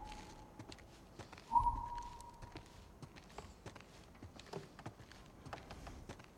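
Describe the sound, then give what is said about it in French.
Footsteps of a person walking alone come as faint, soft taps at an even, unhurried pace, with one brief louder thump partway through. “Je suis toujours dans la peau d'Elie et je marche. Je marche seul, comme dirait Jean-Jacques.”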